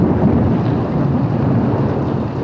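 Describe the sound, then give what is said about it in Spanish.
Heavy rain of a night thunderstorm pours in a dense, loud, continuous roar with a deep rumbling undertone, steady throughout and free of voices. “Esa noche llovía furioso el cielo.”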